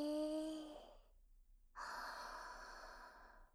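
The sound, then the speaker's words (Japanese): A deep breath drawn in as part of a relaxation exercise: soft, steady airflow lasting about two seconds, after a short voiced sound and a brief pause. “まずは深呼吸をするっす。吸って”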